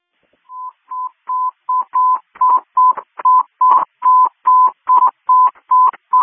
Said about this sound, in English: the patient hung up on me, and I'm trying to get her back on the phone.